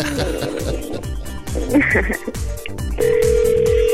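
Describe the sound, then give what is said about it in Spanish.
Ringback tone of an outgoing phone call: a steady, even electronic tone that begins partway through and holds to the end, after stretches of talk in Spanish. “Ay, ojalá nos conteste. Estaría maravilloso para decirle que le hablamos de México.”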